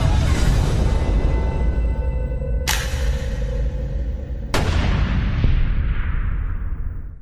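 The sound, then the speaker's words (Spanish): Two sharp gunshot-like bangs cut through a dense, loud, sustained music bed in a Spanish-language drama scene, the second striking a couple of seconds after the first. “Ahí escuchamos cuando recibe el tiro, sí, la verdad que es muy trágico.”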